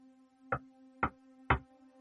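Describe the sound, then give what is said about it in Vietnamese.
Light knocking on an old, soft wooden door: three evenly spaced, muffled raps, each short and fairly loud, over a faint steady hum. “gõ nhẹ nhẹ lên cánh cửa gỗ cũ mềm.”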